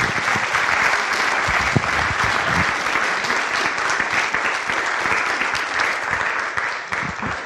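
Loud, dense applause from an audience welcoming two pastors at a ministry gathering, a continuous wash of many hands clapping that holds steady for the whole stretch without any clear break.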